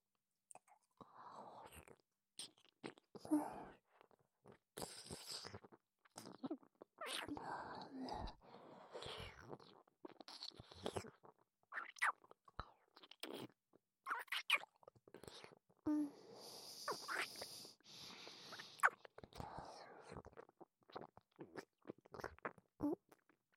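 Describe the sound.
Whispered ASMR mouth sounds mimicking eating the listener's ear: many soft, wet smacks, nibbles and crunchy clicks in irregular bursts, with quiet whispering between them.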